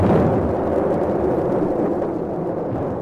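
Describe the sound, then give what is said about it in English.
Ship's guns firing, heard as a dense, continuous rumbling din rather than distinct separate shots. It starts loud and eases slightly as it goes on. “An infernal din of guns broke out as we approached the channel.”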